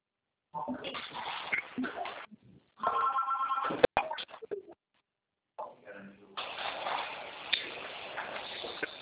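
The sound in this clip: A telephone ring tone sounds while a call is being placed, a short tonal burst heard between stretches of people talking over a narrow, phone-like line.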